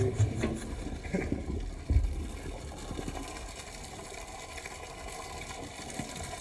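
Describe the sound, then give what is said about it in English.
Clean water gushes from a pipe, flowing from one pond to another and spilling over a pedal boat. It makes a steady, loud rush with a brief splashy surge early on and then a continuous even flow. “This is where the water comes out, from the pipe, clean water. From one pond to the other. Here it goes over the boat.”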